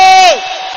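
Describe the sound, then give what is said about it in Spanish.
At a worship rally in the Luna Park arena, a crowd lets out a single loud, held shout that slides downward in pitch and drops into a quieter murmur of voices. “Grite, salte, chifle, zapatee, que se venga abajo el Luna Park.”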